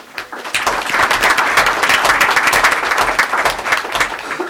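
An audience applauds musicians from an all-state music program, dense loud clapping that starts up quickly and holds steady for about four seconds.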